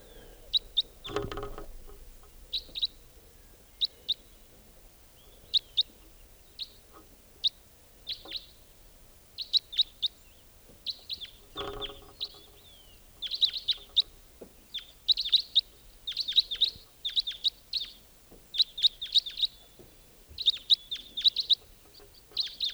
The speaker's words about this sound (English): Wild white-winged crossbill there. Yeah. Recording. Just a few minutes ago, a white-winged crossbill flew over.